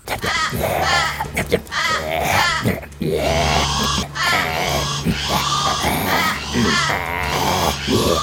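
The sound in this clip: A voice imitates the call of a migratory bird on a Pacific island as it relaxes in a tree. The loud, continuous run of warbling, wailing and grunting vocal sounds rises and falls in short phrases.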